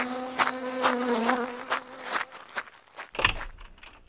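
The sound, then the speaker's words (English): Insects buzzing in a vegetable garden: a droning hum with a wavering pitch carries through the first half, then thins out, with a scattering of brief sharp clicks throughout. “This is the vegetable garden. Wow, there are a lot of insects.”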